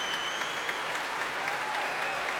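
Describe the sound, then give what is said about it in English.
Promenaders cheer and an orchestra applauds while music stands are tapped as the conductor walks back onto the platform after a symphony. The clapping is dense and steady, with brief bright accents over the continuous wash. “Walking back onto the platform to the cheers of the promenaders and the applause of his own orchestra. Music stands being tapped enthusiastically.”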